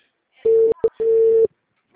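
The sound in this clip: Telephone line tone while a call connects: two long, steady beeps at one mid pitch with a very short beep between them, followed by silence.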